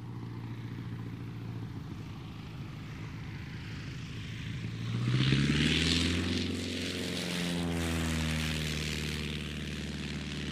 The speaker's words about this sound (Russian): Разбудил меня звук. Звук, знакомый с детства. Самолет. Я вырос в небольшом приморском городке, рядом с которым был аэродром малой авиации. Звук мотора «Аннушки» сложно с чем-то другим перепутать.